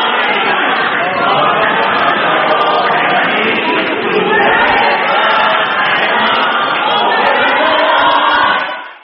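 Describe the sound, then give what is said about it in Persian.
A protesting audience in a concert hall in Rotterdam, Netherlands, shouts and cheers in a loud, continuous roar of many voices that holds steady before cutting off sharply at the end. “پس از خواندن ترانه یار دبستانی من، تماشاگران همچنان به اعتراضهای خود در سالن شهر روتردام هلند ادامه می‌دهند”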